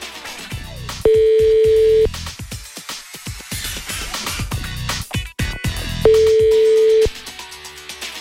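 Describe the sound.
Ringing tone of a phone call placed to a prize winner: two identical long, steady, mid-pitched tone bursts about five seconds apart, heard over loud, busy background music.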